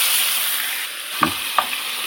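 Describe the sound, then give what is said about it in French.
Meat browning with coarse salt in a pot for a chicken dish sizzles with a steady, bright hiss, broken by a few soft clanks or scrapes of stirring. “Tu mets toute la viande ? Oui, oui, mets tout. Voilà. Là, on laisse rougir un petit peu.”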